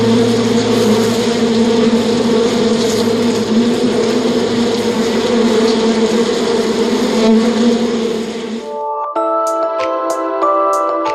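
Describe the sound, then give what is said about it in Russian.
Bee buzzing, a steady, loud droning hum with rich overtones that holds for about nine seconds before cutting off into a brief, different tonal sound. “Также многим знаком пчелиный гул.”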